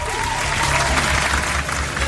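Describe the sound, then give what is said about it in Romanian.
Crowd applause, loud and steady, a dense wash of clapping that stays even in level throughout without a clear break. “Aplauze și bucurie!”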